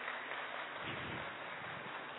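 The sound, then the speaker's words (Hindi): Audience applause in a hall at a poetry recital: a dense, even patter of many hands clapping steadily throughout, with no pauses or voices. “हम सभी कम से कम तालियां तो बजा ही सकते हैं।”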